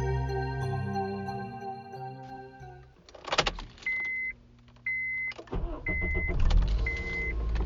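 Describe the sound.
A car on a road in Los Angeles, heard as a steady, low engine drone that gives way to rattling noise and then four evenly spaced electronic beeps over a rougher hum.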